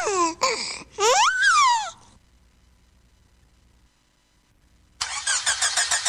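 A car engine struggling to start. Uneven, whining bursts with wavering pitch come first, then a near-silent pause, then a rapid, rhythmic stuttering of cranking at the end.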